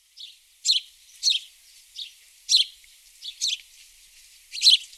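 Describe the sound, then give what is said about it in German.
A house sparrow gives a series of short, high, monotone chirps, spaced irregularly over a quiet background. “Was ihr hier gehört habt, das ist natürlich der Spatz. Oder man kann auch auf schlau sagen, Haussperling.”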